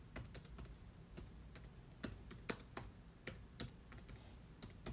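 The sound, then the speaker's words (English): Typing on a computer keyboard as a website address is keyed in: quick, irregular clicks of individual keys, fairly faint and alone, with a few sharper strokes standing out. “So when I get to the PTSS, that stands for post-traumatic slave syndrome, that website, maybe I'll type it all the way out so I can get to it.”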